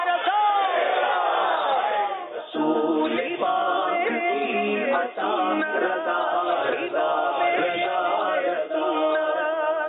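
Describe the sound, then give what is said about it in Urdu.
A crowd at a naat recitation competition answers a leader's call by shouting the religious slogan Faizan-e-Raza, producing loud voiced chanting in several long bursts separated by brief dips. “نعرہ لگائیے فیضان رضا.”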